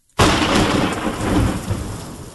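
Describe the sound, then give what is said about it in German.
A thunderstorm: a crack of thunder bursts in abruptly and rolls on as a loud, sustained rumble, under a steady hiss of heavy rain. “Ja, und es gewittert weiter.”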